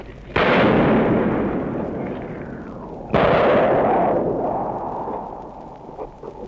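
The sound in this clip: Two heavy gunshot blasts from street fighting amid a ruined city during its liberation, each a sharp loud crack followed by a long rumbling decay, the second arriving about three seconds after the first.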